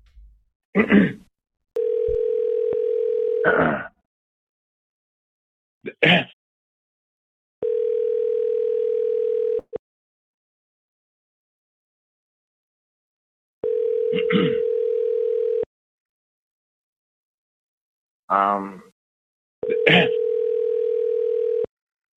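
Steady telephone tone while calling a second phone number, four even tones of about two seconds each separated by longer gaps, with brief bursts of other sound between them.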